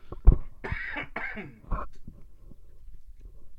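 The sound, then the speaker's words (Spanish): A person with a sore throat coughs a few times. A sharp burst is followed by rougher, raspy hacks that sound like throat clearing, and then the sound settles into quieter breaths. “A ver, aguanten porque voy a toser.”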